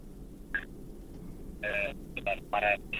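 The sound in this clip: Telephone tones as a listener's call comes through on a radio call-in show: a series of short electronic beeps of uneven length, some clipped and some held, over a low steady hiss.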